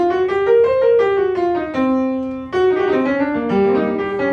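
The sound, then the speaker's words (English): A blues scale demonstrated in a music lesson as a run of sustained, smoothly connected melodic notes stepping through the scale, with a brief break midway before the line continues. “So blues scale sounds like this.”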